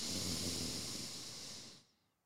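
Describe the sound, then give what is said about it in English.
A long, deep breath drawn in during a guided breathing exercise: a quiet, steady, breathy hiss that lasts nearly two seconds and then fades away, heard alone. “We're going to breathe in love.”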